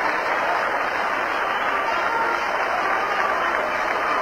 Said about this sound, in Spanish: Arturo que montera en mano agradece las ovaciones de los espectadores.